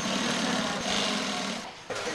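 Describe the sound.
A sewing machine runs steadily while stitching coats that convert into sleeping bags. Its whirring mechanical drone stays dense and loud throughout, with a brief dip just before the end.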